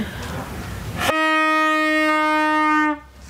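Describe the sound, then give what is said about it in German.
A medieval night watchwoman's horn sounds one loud, sustained blast at a steady pitch, rich in overtones, holding for nearly two seconds before cutting off sharply after a noisy lead-in. “Was ist denn das für ein Horn eigentlich? Und das macht einen Ton. Geht das auch leise? Das geht nur laut.”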